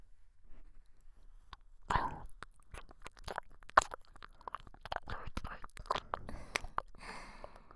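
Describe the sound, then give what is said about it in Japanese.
Soft, wet ear-licking and mouth sounds, a string of many quiet smacks, clicks and moist tongue noises at irregular intervals, faint and without any talking. “それでは改めてその耳、舐めさせていただきますね。”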